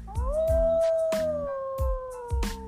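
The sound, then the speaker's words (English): A wild wolf howls in one long, clear note. It rises at the start, then holds and slowly sinks in pitch, with a few regular low thuds beneath it. “It's not hard to recognize the call of the wolf.”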